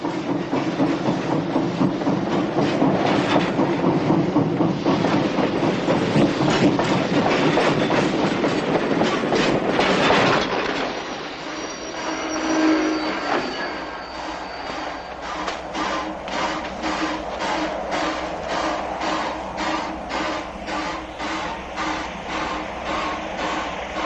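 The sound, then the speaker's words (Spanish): A train in an old Western setting pulls up beside a water tank, its wheels giving a loud, steady clickety-clack rattle. The noise eases briefly midway, then a rhythmic clatter resumes and continues to the end. “Al llegar el tren junto al depósito de agua, se detiene.”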